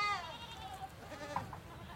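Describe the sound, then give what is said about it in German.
Lambs bleating in the background on a goat farm, bottle- and bucket-raised: a few faint, wavering nasal calls spaced out over a low, quiet backdrop. “Im Hintergrund meckern einige Lämmer, die ich mit Flasche und Eimer großgezogen habe.”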